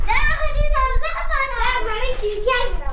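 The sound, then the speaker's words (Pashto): Children's high voices shout and chatter without pause as they play and throw snowballs in a snow-covered street in central Ghazni, loud and lively throughout. “په کوڅو کې ماشومان په یو بل پسې د واورې مرګوړي ولي او ساتیرای کوي.”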